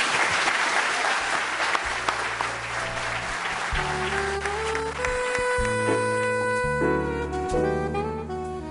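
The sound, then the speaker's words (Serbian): Audience applause at the end of a poetry evening at the Kolarac Endowment hall in Belgrade: loud, dense, steady clapping throughout, with music entering under it partway through and growing clearer toward the end. “Još jedan puta za kraj aplauz,”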